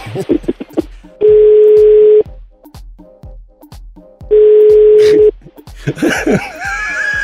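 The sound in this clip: Telephone call ringing and going unanswered: two long, steady ring tones of about one second each, separated by a pause, amid people laughing throughout and louder laughter at the end.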